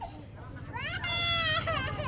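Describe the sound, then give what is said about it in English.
An infant cries in a medical tent while a doctor measures its height and weight: a sustained, wavering, high-pitched wail begins after a quieter opening and stays loud over a low background hum. “At the UNICEF medical tent, an infant cries for its mother as a doctor takes height and weight measurements.”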